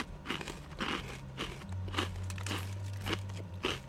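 Crisp bites into a potato croquette, a steady series of sharp crunches in an even chewing rhythm over a low continuous hum.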